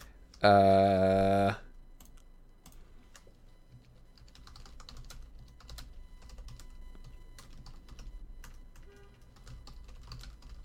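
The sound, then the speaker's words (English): Faint, irregular keystrokes of typing on a computer keyboard go on for several seconds after a short, loud tonal sound at the start. “I am going to bounce back to my other screen. I'm going to put this in type as well.”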